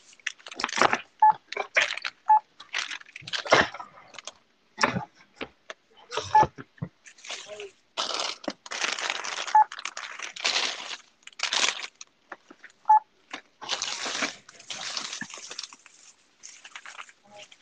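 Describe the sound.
A barcode scanner at a Dollar General checkout gives a few short, high beeps spaced apart, amid bursts of rustling and handling noise.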